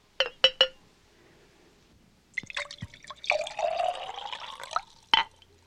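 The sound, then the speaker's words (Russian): Wine poured into a cup: a few sharp clinks at the start, then a steady trickling pour whose tone rises slightly as the cup fills, and one final clink at the end. “Возьми эту чашу. Это моя чаша. Слушаюсь, Ваше Величество. А теперь наполни ее вином.”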